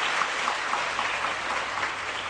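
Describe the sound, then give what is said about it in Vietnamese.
Applause from listeners at a Buddhist teaching session: an even, rain-like hiss of many hands clapping that holds steady throughout without pauses. “Vỗ tay.”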